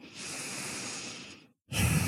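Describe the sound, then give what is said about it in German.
Deep, deliberate breathing in and out during a guided yoga meditation: one long, airy breath that slowly tapers off, a brief silence, then the next breath starting strongly, with no voices. “In diesem Moment atme gerne mal etwas bewusster und tiefer ein und aus.”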